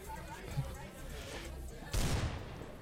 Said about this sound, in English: Oh, my God, he just shot himself.